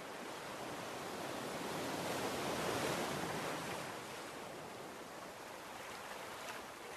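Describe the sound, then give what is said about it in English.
Sea waves lap against someone's legs in a continuous soft, rushing wash that swells to a peak near the middle and then eases back to a steady hiss. “Feel the relief Paul felt as his weariness washes away with each wave lapping his legs.”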